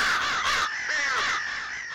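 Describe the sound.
Harsh, raspy crow cawing fills the short stretch on its own, a loud drawn-out call with a rough, grating texture.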